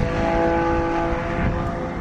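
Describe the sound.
Vintage racing cars driven for fun on a track at a Vintage Automobile Racing Club event, a continuous droning engine roar with steady tone that holds evenly for two seconds, no voices.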